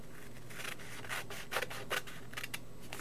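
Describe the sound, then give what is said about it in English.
Scissors cut along folded paper, making several soft, crisp snipping and rasping strokes at an uneven rhythm over a low steady background hum. “So why don't I just fold it like that? And I'm going to cut along here,”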